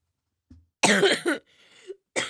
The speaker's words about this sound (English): I know I am coughing a lot, but I do have like, I got something going on, like allergies